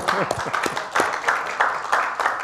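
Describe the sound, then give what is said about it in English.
A church audience claps in a series of short bursts that repeat at a steady rhythm. A voice speaks briefly at the start, and the clapping is moderately loud. “Give that a clap.”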